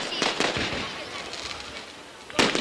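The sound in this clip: Fireworks go off at a carnival in Sitges in 2010, a sustained crackling and popping wash with a few sharper, louder bursts standing out near the start and at the end.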